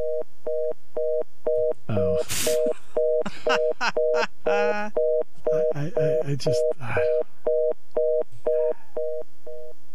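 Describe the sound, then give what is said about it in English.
A telephone line on hold during a call to Southern Columbia sounds a repeating pattern of short electronic beeps in a steady rhythm, with a voice talking over the middle stretch. “a call to see if they claim the suit. And so I'm currently on hold.”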